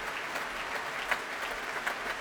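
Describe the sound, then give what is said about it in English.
Concert hall audience applause at the Royal Albert Hall in London after an opera performance: a sustained, even wash of many hands clapping with no pauses, moderately loud throughout. “I think the applause will go on for quite some time.”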